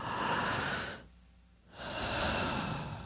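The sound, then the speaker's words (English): A voice imitates a deep calming breath, a long breathy inhale, then a short quiet pause and a long exhale. Soft, airy and unhurried. “that's taking a deep breath, breathing air in all the way and then breathing it out to calm you down.”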